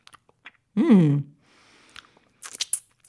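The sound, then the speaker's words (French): A bear biting into and crunching a piece of gingerbread: a short, low voiced grunt comes first, then a few crisp, snapping crunches near the end amid small scattered clicks. “L'ours a pris le morceau de pain d'épices, il a regardé, il a croqué. Il a croqué.”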